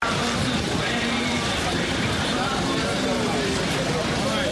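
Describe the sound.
Busy ambience at the Beaux Maraîchers intercity bus station in Dakar: dense, unbroken vehicle engine noise and traffic rumble blended with crowd babble, loud and constant throughout.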